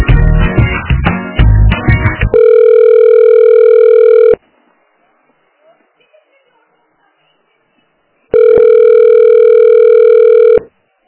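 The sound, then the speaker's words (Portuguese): Telephone disconnect tone after a dropped call: a short burst of busier broken signal, then two long, loud, steady tone segments separated by several seconds of near silence. “Caiu a ligação, né?”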